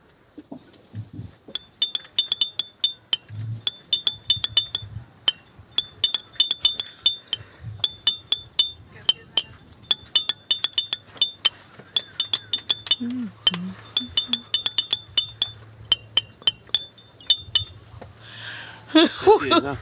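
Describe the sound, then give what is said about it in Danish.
Clinking champagne bottles play a tune on a beach for a music quiz, giving many bright glassy taps in a quick, uneven melodic rhythm with brief pauses, high and ringing throughout. “han står hernede på stranden til Tisvilde, og for at lave den legendariske Tisvilde musikquiz. Det er det, vi er i gang med. På champagneflasker.”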